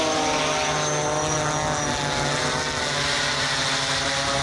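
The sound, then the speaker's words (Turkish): Iranian kamikaze drone in flight, its propeller engine giving a loud, steady, buzzing drone with strong sustained harmonic tones and no voices, holding evenly throughout. “Doğu'da füzelerle beraber drone saldırılarının arkası kesilmiyor. İran balistik füzelerle beraber kamikaze dronlarla ABD-İsrail saldırılarına karşı koymaya, teknolojik dezavantajını kapatmaya çalışıyor. Körfez ülkelerinde bu ses endişe yaratıyor.”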